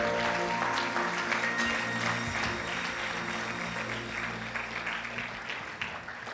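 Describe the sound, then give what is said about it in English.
Church audience clapping to welcome the Holy Ghost during worship: loud, dense, sustained applause with steady tones held beneath it, easing off slightly toward the end. “Now put your hands together and welcome the Holy Ghost in the room.”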